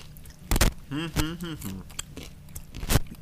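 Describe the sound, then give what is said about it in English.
A big chomp of food right at the microphone gives a sharp, crunchy burst. A voice hums in a wavering tone, then a few smaller chewing crackles follow and a final crisp crunch near the end. “You get a big chomp in that mic for you.”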